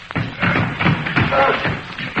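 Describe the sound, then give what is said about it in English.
Heavy thuds as a foot-thick solid oak door is forced and broken down, with a series of dull, booming blows and crashing impacts following one another closely. “That door's a foot thick. It's solid oak. They're trying to break it down.”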